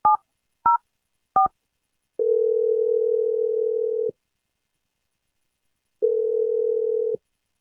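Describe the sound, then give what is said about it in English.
Telephone call being placed: three brief keypad beeps, then two long, steady ringing tones separated by silence, with no voices. “So let's give him a call right now.”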